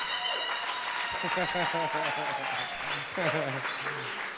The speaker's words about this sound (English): Yes, let's give them a hand.